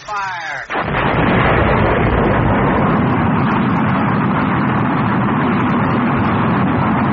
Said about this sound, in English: Fire. Wow! This is noisy and cramped and going up in the sky.